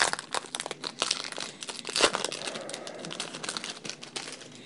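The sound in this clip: Crinkling and tearing of a 2026 Topps Series One baseball card pack's wrapper, a dense run of crackly rustles and snaps with one sharper burst near the middle, with no voices.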